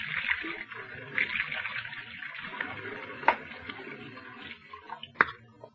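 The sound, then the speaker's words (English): Running tap water as someone washes their hands, a steady splashing hiss with two sharp clinks standing out near the end. “Wait till I wash my hands.”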